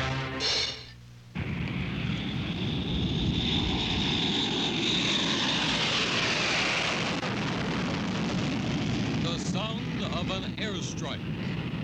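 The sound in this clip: Military aircraft in a tactical air operation over the Libyan desert. A brief voice gives way to a loud, sustained engine roar that swells and sweeps through the middle, with fainter warbling engine sounds near the end.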